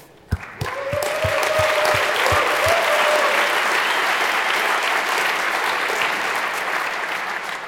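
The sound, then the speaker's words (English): An audience applauds game show hosts. A few opening claps swell quickly into dense, sustained clapping that stays loud and steady to the end. “I heard we have a video to show you, so let's give it up for the speakers. Game show hosts.”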